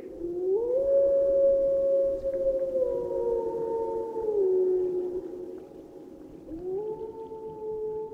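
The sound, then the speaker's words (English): Wolf howling: a few long, sustained howls that overlap. One tone slides slowly downward over several seconds, and another howl rises and holds near the end. The howls are loud and steady, with no talking. “we're trying to really figure out what does that wolf howl mean.”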